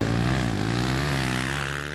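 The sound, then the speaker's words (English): Quad bike engines drone as the bikes race at Queensland Moto Park during last-chance ATV motocross training, a loud, steady, buzzing engine tone with strong harmonics that holds throughout. “last chance training for Queensland quad bike representatives has taken place at Queensland Moto Park ahead of the ATV MX National Championships this weekend.”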